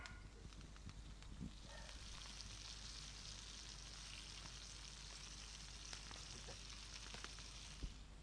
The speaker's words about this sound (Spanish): Ese es el sonido de un asado en vivo.